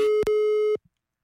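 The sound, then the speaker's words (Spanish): A telephone call tone sounds while dialing out: one steady, mid-pitched beep lasting under a second with a brief break near its start, then silence. “vamos por aquí a marcarle rápidamente a Juan Pablo, que nos ofrece una alternativa muy padre para el cuerpo. A ver si nos contesta.”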